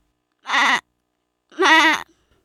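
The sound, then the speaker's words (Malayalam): A goat bleating twice: two loud, wavering, nasal calls, the second slightly longer, separated by about a second of silence. “Aadu.”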